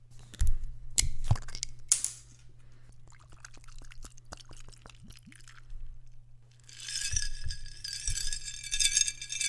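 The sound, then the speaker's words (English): A mini bottle of Dewar's whiskey is opened with sharp clicks and light glassy clinks, then poured over ice with a bright, steady crackling fizz near the end. The sound is faint overall. “That's the sound of opening and pouring a little mini bottle of Dewar's whiskey on ice.”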